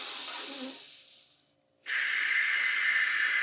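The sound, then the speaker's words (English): Deep breaths drawn during a bodyweight exercise routine: two long, airy, hissing breaths separated by a brief pause of near silence, the second slightly louder and steadier than the first. “Let's go three big inhales here.”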